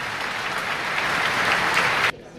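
Applause breaks a minute of silence at a tribute outside the town hall doors in Jaca, where residents and tourists have gathered. The clapping swells slightly as it goes on, then drops off abruptly near the end.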